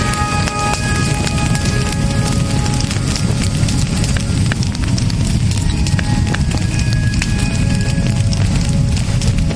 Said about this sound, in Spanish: Los uniformes alemanes arden bien, eh, no como los nuestros.